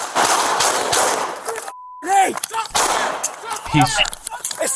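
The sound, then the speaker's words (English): Gunfire during a police traffic stop: a rapid burst of loud, sharp shots at the start, a brief cut to silence, then frantic shouting voices mixed with further loud bangs. “Shots fired! Shots fired! Hey, throwing that gun fire!”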